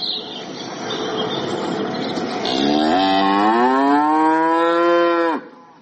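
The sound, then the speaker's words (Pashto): A large hornless cow lows on a dairy farm: one long, loud, steady moo that swells in the second half and cuts off abruptly, preceded by a rougher, noisier stretch of lowing. “دا غواوې د عادي کلیوالو غو سره فرق لري، ښکرونه نه لري. تر کلیوالو غواو غټې دي”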